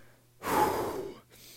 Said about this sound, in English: So, gotta take some deep breaths. I'm losing my breath here talking for an entire 5 minutes or whatever.